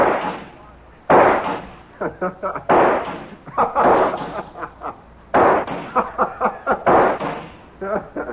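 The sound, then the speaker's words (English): Several loud gunshots from a gun, fired as sharp, powerful bursts at uneven intervals, with smaller crackling pops between them. “I hit you with every shot.”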